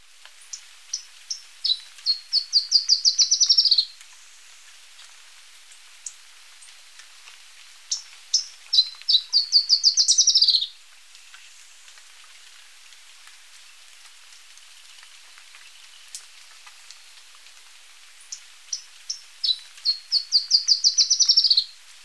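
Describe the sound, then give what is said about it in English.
Black-crested warbler song: three separate bouts of high, thin chip notes that start spaced and quicken into a bright buzzy trill, each bout lasting about three seconds with long quiet gaps between. “Black-crested warbler.”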